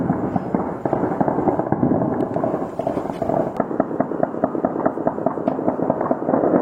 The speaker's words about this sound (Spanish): En redes sociales circularon imágenes captadas por los vecinos en las que se escuchaban ráfagas de armas de alto poder.